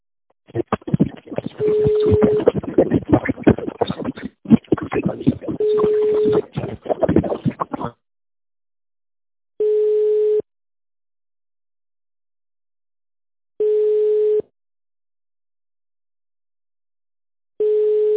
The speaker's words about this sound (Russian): Абонент 101 занят.